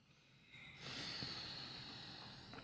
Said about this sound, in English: Okay, let's try again. With, all right. Let's try with the ujjayi breath.